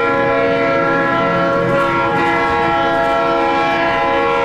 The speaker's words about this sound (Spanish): Órale, pues si no es el tren que pasa ahí por las Américas, tú.